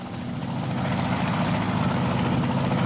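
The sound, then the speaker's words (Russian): A helicopter flying overhead gives a loud, steady drone of rotor and engine with a low, throbbing hum that holds constant throughout, with no voices. “Вертолет!”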